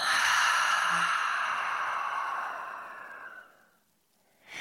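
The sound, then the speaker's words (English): A deep breath let out slowly through the mouth, a long, steady, breathy rush that holds for a few seconds and then fades away. “take a really deep breath in and through the mouth, let it out.”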